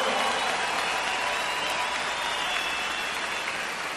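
Concert audience applauding in honor of the drummer: sustained, dense clapping that stays steady and fairly loud for the full four seconds.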